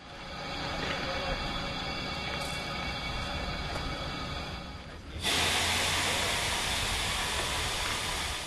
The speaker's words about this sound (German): Unser Zug wird zur Weiterreise umrangiert.